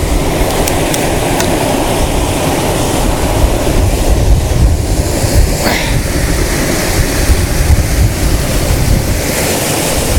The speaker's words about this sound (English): this waterfall is really nice